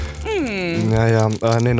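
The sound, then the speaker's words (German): Squeaky, tonal whine of a drinking straw worked in an iced matcha latte cup for ASMR: a loud, buzzy, sustained squeal that wavers in pitch at first, then holds a steady low tone, breaks off briefly and returns. “Ich mache hier ein bisschen ASMR hier mit dem Strohhalm.”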